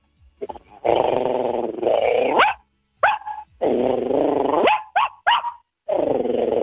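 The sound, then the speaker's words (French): A voice imitates a big dog's deep, rumbling growl and a tiny dog's bark: long, sustained growling stretches alternate with a few short, sharp yaps, and there are brief silent gaps between them. “c'est un grognement de gros chien et un aboiement de ouais. Tout petit chien.”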